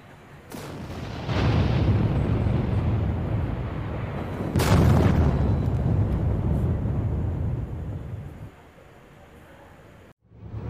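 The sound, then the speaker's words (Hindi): A gas blast erupts as a stove is lit in a room, with a few heavy booms. Each bursts into a long, dense rumbling roar, the second boom the strongest, before the noise drops away to near quiet. “और सुप्रिया जैसे ही gas चलाने गई और उसी वक्त क्या हो गया, उसी वक्त सुप्रिया एक ब्लास्ट का शिकार हो गई।”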